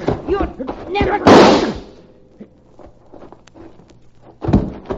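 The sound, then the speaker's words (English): A single loud, sharp rifle gunshot cracks out during a struggle over the gun and fades into a rumbling tail, with raised voices just before it and quieter sounds after. “She pushed that rifle barrel up to her neck and then she squeezed the trigger.”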